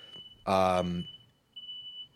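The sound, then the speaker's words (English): A fire alarm goes off as a thin, steady, high-pitched tone that lasts the whole time. It is faint beneath a brief burst of speech. “Oh, fire alarm was just going off.”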